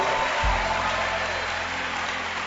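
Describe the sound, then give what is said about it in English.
A church audience claps during a testimony. The applause is an even, steady wash of many hands, with a soft low thump near the start. “Oh, I like the way you're clapping.”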